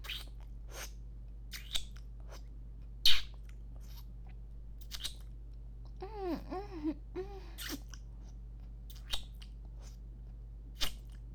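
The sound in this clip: Crisp bites and chewing of a large cucumber, a few sharp crunches spaced well apart over a steady low hum, with a brief murmuring voice midway.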